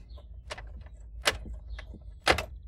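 A key locks a house door: a few quiet metallic clicks and rattles, with two sharper, louder clacks standing out.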